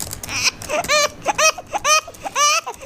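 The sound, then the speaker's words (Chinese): A baby crying hard in a string of short, high-pitched wailing bursts, each rising and falling in pitch and separated by brief gaps, fairly loud throughout. “孩子哭得这么厉害”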